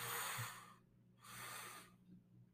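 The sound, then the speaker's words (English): Two deep inhales through the nose during a guided breathwork exercise: two long, airy breaths separated by a short pause, soft and quiet with no talking. “One last time, two deep inhales through your nose.”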